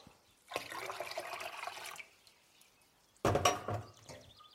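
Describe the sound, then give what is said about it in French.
A litre of water being poured in two separate bursts of splashing, gushing flow, the first longer and steady, the second shorter and louder, with near silence between. “Je verse mon quatrième litre d'eau.”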